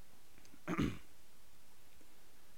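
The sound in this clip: A single short throat clearing comes from a throat made dry and chalky by sawdust in a woodworking studio, a brief rough burst against quiet.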